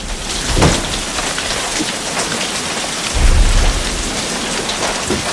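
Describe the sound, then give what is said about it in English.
Lashing rain pours down on a filthy night outside a cabin. It is a dense, loud, unbroken hiss, with two low rumbling swells rising beneath it. “closes an open window against the lashing rain.”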